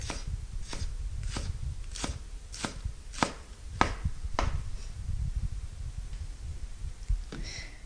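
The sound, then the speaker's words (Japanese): A knife finely minces Japanese long green onion with many crisp, evenly spaced chops on a cutting board, keeping a steady rhythm before slowing to a few scattered cuts near the end. “みじん切りはネギを回しながら縦に何箇所か切れ目を入れます。それから端からみじん切りにしていきます。”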